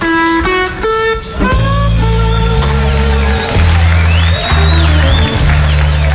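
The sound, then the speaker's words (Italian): An audience cheering at a concert recorded inside San Quentin prison: a loud, excited crowd roar with applause that rises and carries on over steady music throughout. “perché è effettuata presso il carcere di San Quentin. Oh. E ascolterete in sottofondo l'emozione del pubblico.”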